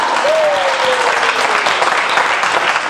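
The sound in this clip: A church audience applauds in worship with loud, steady clapping throughout and a short voice rising over it near the start.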